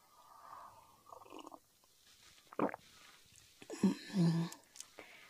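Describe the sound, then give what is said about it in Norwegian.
A sip of a drink is taken, heard as quiet, isolated mouth sounds: a short slurp, then a louder wet gulp and a swallow, with soft breaths between. “Jeg tar en slurk.”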